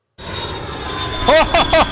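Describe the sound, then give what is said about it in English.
Steady engine drone inside an airplane cabin on a flight from Sydney, a loud continuous roar with a thin high hum running through it; a voice speaks briefly over it near the end. “That's me on a plane, flying back from Sydney to Liverpool”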